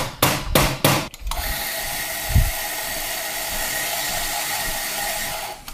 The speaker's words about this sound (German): Das ist die Zahnradpumpe, die wir hören. Hat immer also, so eine also- Anlaufzeit.